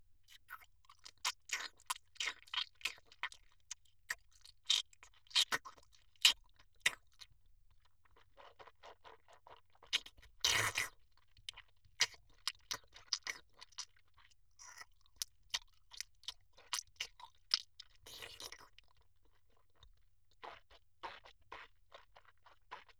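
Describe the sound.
Crunchy chewing of food: many sharp, crisp crunches in irregular bursts separated by short quiet pauses, steady throughout with no talking.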